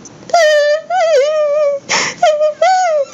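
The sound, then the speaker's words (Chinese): A voice acts out the house-elf Dobby from Harry Potter crying loudly: high, wavering wails come in several bursts separated by brief gaps, with one breathy sob between them. “可是哈利害意的发现，小精灵竟然哭了出来，而且还哭得很大声。”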